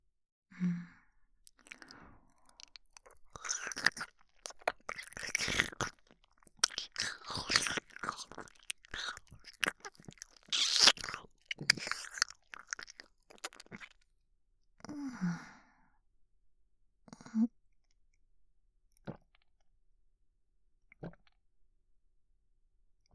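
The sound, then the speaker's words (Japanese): Soft, close wet drinking and swallowing mouth sounds, coming in irregular bursts with breathy sighs and quiet pauses between them. “じゃあまた飲ませてもらうから、飲む音聞いててね。”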